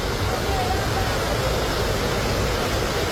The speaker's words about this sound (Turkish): Burası Van'ın Çatak ilçesinde bulunan Kanispi Şelalesi.